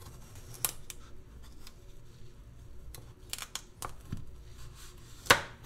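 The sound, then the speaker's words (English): A knife cutting lengthwise-halved carrots for roasting: a few quiet, irregular taps and crunches on a board, with one sharper, louder cut near the end and no talk. “I would like to say that I am trying to be nice and quiet while cutting. And that is definitely why I'm doing it so poorly.”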